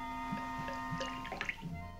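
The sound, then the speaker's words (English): Liquid poured from a decanter into two glasses makes faint trickling and dripping with a few soft splashes over a steady low hum. “Kirk takes his arm away from Anand's throat, picks up the decanter, and pours two drinks.”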